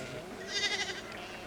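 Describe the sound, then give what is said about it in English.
A sheep bleats once, a short wavering cry rising out of quiet background noise and fading away, fairly faint. “Eula, be careful. Sheep can be wild.”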